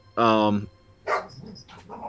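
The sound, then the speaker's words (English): A dog barks as it attacks a cat, starting with one long, loud, harsh bark and then giving a few shorter, quieter barks and yelps. “as my dog attacks my cat”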